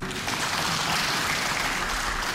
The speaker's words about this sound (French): À l'entrée de leurs collègues de l'opposition dans l'hémicycle, tonnerre d'applaudissements des députés de la majorité.